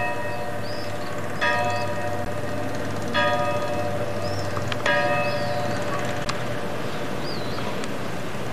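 A church bell on Crete rings out in a few spaced, resonant strikes, each leaving a long humming tone that hangs beneath high bird chirps over a steady low background hum.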